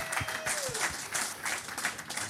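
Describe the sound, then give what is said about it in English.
Applause from a group rewarding a correct answer at a quiz, a steady patter of many claps at moderate volume lasting the whole stretch. “Round of applause for Crystal.”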